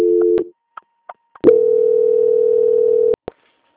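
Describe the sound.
Telephone line tones as a call is transferred to a bank's quality-control desk. A short steady tone and a few faint clicks lead into a long, loud, unbroken tone that ends with a sharp click. No one speaks.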